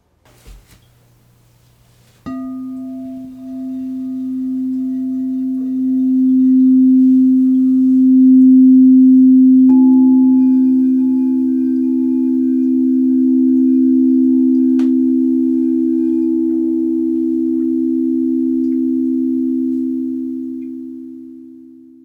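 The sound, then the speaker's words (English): Two pure sine tones forming a musical third. One steady tone sounds alone, then a second, higher tone joins it, and both hold together smoothly before slowly easing off. “This tonal interval is called a third.”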